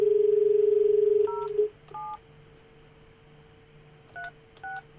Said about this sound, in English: Dialing in the number now.